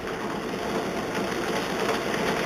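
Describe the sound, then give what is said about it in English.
A bingo machine whirs after being switched on, giving off a steady mechanical hum with a light, even rattle throughout. “So, all that said and done, means it's time to fire up the bingo machine.”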